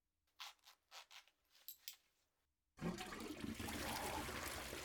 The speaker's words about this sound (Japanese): おしっこ流しそびれちゃったね。